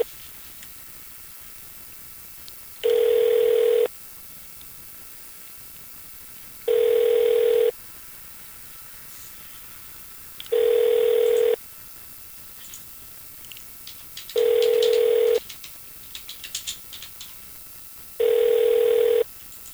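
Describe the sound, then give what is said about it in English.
Telephone ringback tone plays five times at even intervals after a call is placed. Each ring is a long, steady, mid-pitched buzz separated by silence, with no voices. “Did I dial the right number? Apparently nobody there.”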